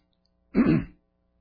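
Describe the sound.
A single throat clearing from a speaker before a talk, a short, rough, low rasp of about half a second, alone against silence.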